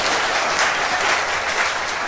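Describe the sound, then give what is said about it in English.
Steady audience applause during a target-aiming demonstration, a dense, continuous roar of clapping at an even, fairly loud level with no pauses. “Give him a round of applause for that.”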